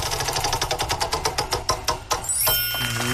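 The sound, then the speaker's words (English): A prize wheel spun for a morning game segment gives off rapid ratcheting clicks that gradually slow and spread apart before stopping. A brief sustained tonal sting follows. “You spin the wheel for us”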